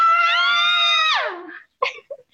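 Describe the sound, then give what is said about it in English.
A person gives a drawn-out, high-pitched cry mimicking screams of agony. The loud, steady wail drops in pitch at the end and is followed by a few short, quieter vocal sounds. “Screams of agony.”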